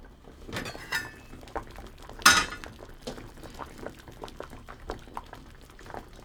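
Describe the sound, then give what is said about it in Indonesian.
Sweet potatoes boiling in a pot of water after about twenty minutes, a quiet bubbling of scattered small pops with one sharper clink partway through. “Ubinya sudah dimasak sekitar 20 menit. Sekarang kita periksa dulu apa sudah cukup lunak.”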